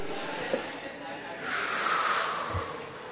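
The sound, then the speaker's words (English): Audience members taking a deep breath together, a soft, airy rush of many inhalations that swells mid-way and then fades, quiet throughout. “Maintain that eye contact. That's important. Really see the other person. Now take a deep breath.”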